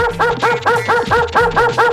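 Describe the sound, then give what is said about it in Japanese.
A dog barks in a quick, evenly spaced run of short, sharp yaps, loud and repeating steadily throughout. “向こうからなんか走ってくる。すごい勢いっす。 なんだありゃ、犬か。”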